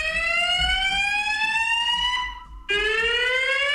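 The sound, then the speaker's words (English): A fire alarm installed in a condo blares a piercing electronic tone that climbs steadily in pitch, drops out briefly, then restarts lower and begins rising again, loud and alone. “Lives in a condo. That's the fire alarm that they installed.”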